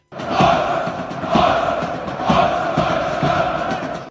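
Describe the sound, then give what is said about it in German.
A stadium crowd roars in rhythmic surges, with four strong swells roughly a second apart over a continuous loud wash of many voices, as though chanting together. “es ist nämlich eine Aufnahme aus einem Stadion”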